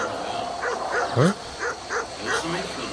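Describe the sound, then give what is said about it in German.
Dog barking in a quick series of short, sharp yips and bow-wows with a brief rising whine in the middle, over steady background hiss. “ich höre nur das Hundegebell”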